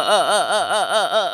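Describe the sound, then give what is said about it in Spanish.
A voice imitates a bleating sheep with one sustained, quavering tone whose pitch wobbles up and down in about six quick arcs, steady and fairly loud throughout. “Ay, nena, sos la oveja esta de TikTok que me muestra siempre mi nieta.”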